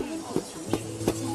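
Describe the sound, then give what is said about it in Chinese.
Three dull, evenly spaced thuds as a wooden mallet pounds tea leaves, perilla, garlic, ginger and peanuts in an iron wok at a tea exhibition, fairly faint over a steady low hum. “将茶叶、紫苏、大蒜、生姜、花生等放入铁锅中，用木锤用力地反复敲打着。”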